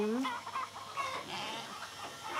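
Hens on a farm cluck continuously in overlapping, fairly faint calls, with a few higher squawks among the steady chatter.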